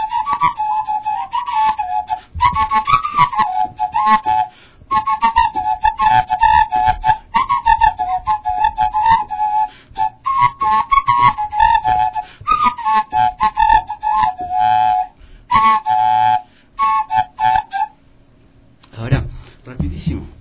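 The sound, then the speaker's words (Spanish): A bottle whistle is played as a wavering, breathy tone that slides and bends in short melodic phrases with brief pauses, sustained steadily for most of the passage. “Este es una botella silbato.”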